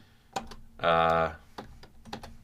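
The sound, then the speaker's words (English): Keys clatter on a computer keyboard as someone types notes, a few sharp separate keystrokes on either side of a brief voiced sound in the middle. “I'll tell the story of how I met my wife. I'm going to write it right now, actually, so don't forget.”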